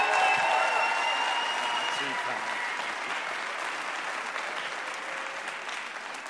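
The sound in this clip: Audience applause and cheering welcoming a speaker onto the stage. It starts full and loud, then eases very gradually while staying a dense wash of clapping throughout.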